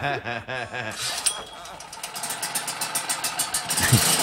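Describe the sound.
A generator's engine runs with a steady, rhythmic chugging pulse that grows slightly louder. A person speaks briefly at the start.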